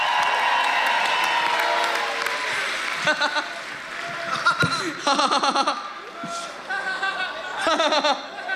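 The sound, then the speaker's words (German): Applause and cheering from a crowd celebrating a birthday, loud at the start and then thinning into scattered claps, laughter and lively chatter. “Genau, macht mal Applaus für Fritz.”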